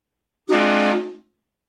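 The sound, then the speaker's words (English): A train horn sound effect: a single loud, steady chord-like blast lasting under a second, starting abruptly and fading quickly, heard alone. “Hit the train horn for a second, please.”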